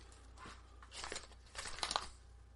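Faint crinkling of a blue $2 hockey card surprise-bag wrapper with a goalie on the front as the pack is handled. Soft, irregular crackles swell into a few brief bursts, with no talk.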